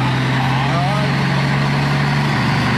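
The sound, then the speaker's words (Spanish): A Dina truck engine idles in a steady, low, droning hum with a constant pitch and an even rumble that does not change. “Este tiene un motor de Thornton. Tiene un motor de camión Dina.”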